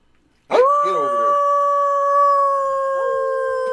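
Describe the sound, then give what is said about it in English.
A dog breaks into a sudden, loud, long howl after a brief silence. It holds a steady pitch for about three seconds, and a second howling tone joins near the end. “Oh, look at that dog.”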